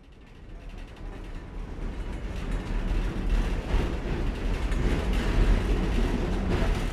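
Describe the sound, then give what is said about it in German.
A rattling Soviet-made tram rides through Lviv from the old town, giving a continuous low rumble with dense mechanical rattling and creaking that grows slightly louder and stays steady. “In Begleitung des Historikers Andriy Usatsch geht es in einer ratternden Tram aus sowjetischer Produktion von der schönen Altstadt Lwiws”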